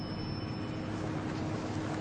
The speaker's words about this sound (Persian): سید در ایستگاه مترو و تنها به رفتن قطاری نگاه میکنه.